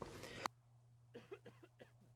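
A short, harsh cough or throat clearing comes as one dense burst at the start, followed by a few faint, brief sounds, all quiet overall.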